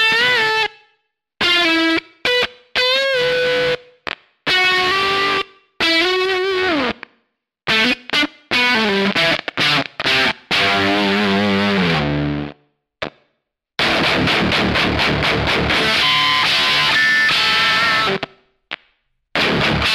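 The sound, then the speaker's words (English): Distorted, nasty fuzz synth tone from a Kemper Profiler wave shaper, played as many bursts of buzzy, harmonically rich notes broken by brief silences, loud and alone. “So if you're looking for nasty fuzz sounds or adding some stuff for a fuzz, then Wave Shaper, Bit Shaper are really great to use.”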